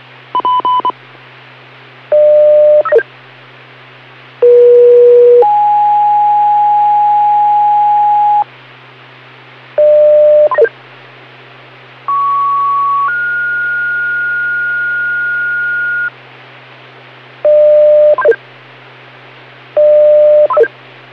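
Spring Creek Fire's weekly test page tones: pure electronic tones in sequence, short bursts alternating with long sustained notes at different pitches, over a steady low hum.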